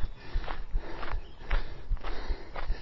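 Footsteps walking at a steady, even pace, with many soft, low thuds in a regular rhythm and no voices.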